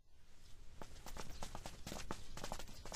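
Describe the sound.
Footsteps of people walking briskly as someone is hurried off toward the government office, many quick, hard steps in an uneven rhythm, steady and fairly loud throughout.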